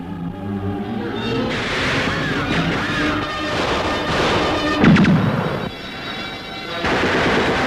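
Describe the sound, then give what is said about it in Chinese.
Radio drama battle effects of gunfire and grenade explosions in a war scene against enemy troops: dense, continuous rattling shots, a louder crash near the middle, then a short dip before the barrage resumes. “没有随着地雷上天的敌人，就请你享受着仇恨的子弹，尝尝手榴弹的滋味吧。”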